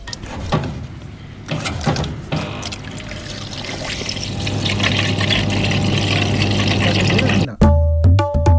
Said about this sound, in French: Réponse, l'eau qui coule d'un broc ou d'un pichet, évidemment quand on a soif.